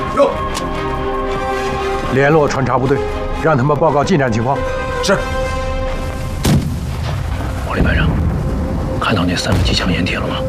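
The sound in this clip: Heavy artillery fire in a war drama, enemy guns laying down a barrage against advancing troops: several deep, loud booms that break through raised voices and a dense, rumbling battle din.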